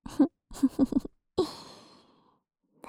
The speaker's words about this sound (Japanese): ほら、お耳ふうふうしたげっから、くすぐったくても逃げんじゃないよ。